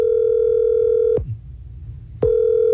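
A steady, fairly low-pitched telephone ringback tone plays while a call is being placed. It sounds continuously, stops for about a second, then resumes, with no voices.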